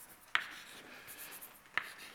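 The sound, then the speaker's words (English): Writing the letter P on a board during a lecture: two sharp tap-squeaks of the marker about a second and a half apart, linked by a faint scratchy stroke. “so M, sorry, I have to write this P.”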